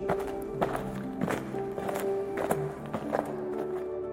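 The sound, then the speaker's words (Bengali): Footsteps walking on a moonlit hillside, a steady series of evenly paced soft steps, moderately quiet, with no voices. “অনিচ্ছুক মিতুলের হাত ধরে সুগন্ধের উৎস সন্ধানে হাঁটা লাগাল তিতাস”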